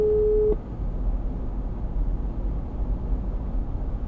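A telephone ringing tone on a call that goes unanswered: one steady, mid-pitched tone about half a second long at the start. It cuts off abruptly, leaving a constant low rumbling noise.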